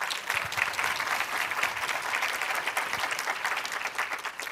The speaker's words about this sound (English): So please give them a hand.